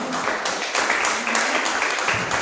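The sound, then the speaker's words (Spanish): Applause from an audience at a community gathering in Jujuy, dense steady clapping that fills the whole clip at an even level. “un aplauso para todos ustedes que tuvieron un hermoso encuentro”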